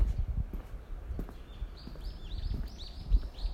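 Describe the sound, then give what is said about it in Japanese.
Birds singing: a rapid run of high, repeated chirping notes, fairly faint, over scattered low thuds. “なんかめっちゃ鳥が鳴いてる。”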